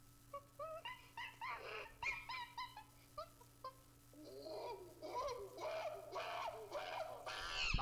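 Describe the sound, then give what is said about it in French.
Monkey cry sound effect: many short, high, harmonic yelping calls, then a denser stretch of shrill chattering screeches that grows louder toward the end, with no talk. “Là, c'est juste le bruit du singe en tant que tel.”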